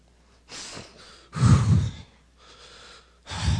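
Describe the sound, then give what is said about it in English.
Deep breathing from a man: a few audible inhales and exhales, with one loud, heavy drawn breath in the middle and another at the end, no words spoken. “Deep breath.”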